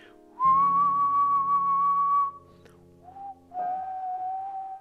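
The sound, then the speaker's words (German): A person whistles a musical theme: one long, steady high note, then after a short pause a brief lower note and a longer held note, clear and fairly soft against a quiet background. “optional kannst du pfeifen. Und dann pfeifst du das Thema.”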